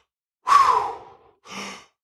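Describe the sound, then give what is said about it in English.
A deep breath drawn in and let out: one long, airy rush of breath, then a brief pause and a shorter, softer breath, with nothing else around it. “Can you take a nice deep breath in”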